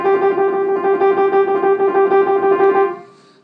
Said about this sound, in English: So a trill is basically something like this.